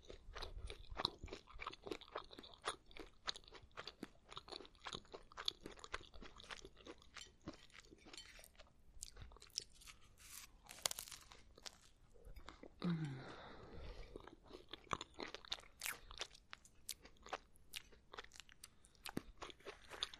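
Crunching and chewing as a person eats crunchy food, with many sharp, irregular bites and munches in a steady run, and no talk over it.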